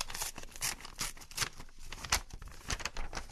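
A sealed envelope is torn open in a quick series of papery rips and crinkles, a few sharper bursts standing out from a steady rustle, with no voices.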